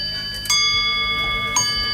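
Two bright metallic bell strikes, sharp onsets at steady intervals with ringing tones that sustain and decay over a low rumble, evoking railway signal bells; no talk.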